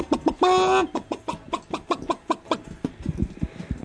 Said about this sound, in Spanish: Ponelo al pollo. Pon al pollo.